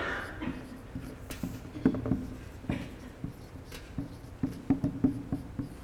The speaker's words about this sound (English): I'm going to write a few of these down.